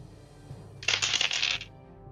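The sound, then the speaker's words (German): A ten-sided die rolls and clatters across a surface during a tabletop role-playing game: a single short burst of rattling, bright tumbling clicks lasting under a second, with no talk. “dann kannst du W10 würfeln plus 3.”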